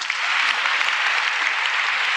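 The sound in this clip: An audience applauds to welcome a guest onto a show: dense, steady clapping that stays loud and even for the whole stretch, with no pauses.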